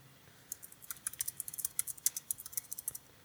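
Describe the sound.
Keyboard typing as someone writes down a note, with many quick, irregular clicks. The taps are fairly faint and come in uneven bursts, with no talking.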